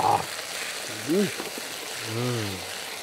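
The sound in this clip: Potatoes frying in a pan, seasoned only with salt, give a steady, even sizzling hiss that runs throughout, with brief bits of voice rising over it.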